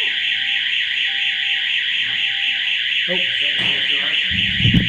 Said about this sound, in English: I will just interject here and say that there is an issue with the fire alarm. Yeah. The staff will tell us if it's a real event. So until then, just try and ignore it.